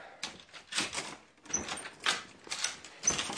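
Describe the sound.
A door being opened at four in the morning: several clattering, rattling bursts in a row, moderately loud, with no talk over them.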